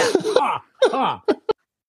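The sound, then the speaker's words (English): Throat clearing: a couple of rough voiced rasps followed by two brief, sharp bursts, then silence. “I was going to say the lines, but I couldn't do it. It was laughing too hard. That's right. There's something in my throat.”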